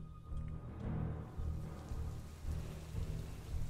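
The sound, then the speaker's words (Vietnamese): Heavy rain pours steadily through a thunderstorm while deep rolls of thunder swell and fade beneath it a few times, with no voices. “Mưa đã bắt đầu nặng hạt. Những hạt mưa mang theo âm phong dấy lên cuồn cuộn. Từ trên bầu trời những luồng điện cứ không ngừng giáng xuống liên hồi, kèm theo đó là những tiếng nổ đùng đoàn”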